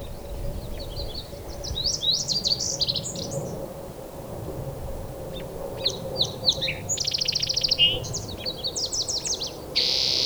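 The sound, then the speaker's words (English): Song sparrow song: two bursts of clear whistled notes and rapid buzzy trills, separated by a short pause, over a low, steady background rumble. “Song Sparrow.”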